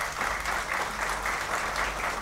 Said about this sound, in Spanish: Se escuchan los aplausos de los presentes, autoridades, apretón de manos.